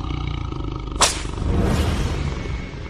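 A tiger growls low in anger, a rough, rumbling roar that runs throughout, with a sharp burst near the start and then a swelling, sustained snarl.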